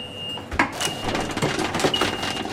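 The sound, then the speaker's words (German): A popcorn machine runs at a cinema before a screening, with a steady mechanical rumble, scattered sharp pops and clicks, and a faint high whine that comes and goes. “Popcorn gehört dazu zum Kinobesuch. Claudia Kessler schmeißt vor jeder Vorführung die Maschine an.”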